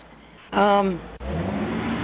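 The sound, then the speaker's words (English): A car engine revs over a phone line as the caller drives, a brief, loud rev rising then falling, followed by a steady, narrow-band engine drone. “Are you driving and talking to us? Uh-uh. That's a no-no with me. Hang up and call us back when you're stationary, not while you're driving.”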